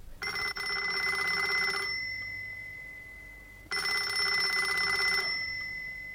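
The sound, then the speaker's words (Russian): A telephone rings twice in an office. Each ring is a loud, bright electric bell tone lasting about a second and a half, with a pause of under two seconds between them. “Этот телефонный звонок, как и положено в детективе, послужил завязкой для нашей истории под названием «Старики-разбойники».”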